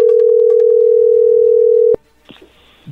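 Telephone ringback tone while placing a call: one steady, mid-pitched tone held for about two seconds that cuts off abruptly, followed by a few faint clicks and rustles.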